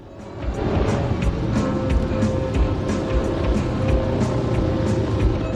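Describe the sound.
A group of motorbikes rides along a street outside a pub, their engines making a steady, loud droning roar that holds level throughout, with light rattling ticks on top.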